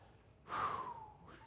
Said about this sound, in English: And so I just want to take a deep breath with you and say,